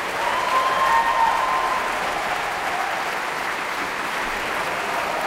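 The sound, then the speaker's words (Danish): Applause from a concert audience in a Berlin concert hall after a symphony, cheering the orchestra's instrument sections as they stand one by one: a dense, steady wash of loud clapping that holds an even level throughout. “Og bifald til de forskellige instrumentgrupper, der bliver rejst en for en.”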